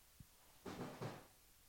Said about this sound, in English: I don't know if you guys heard that. They're knocking things over.